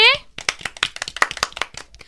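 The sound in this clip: Hand clapping celebrates a garland welcome for a king in a children's story, with a brief voice at the start followed by many quick, sharp claps in an uneven patter.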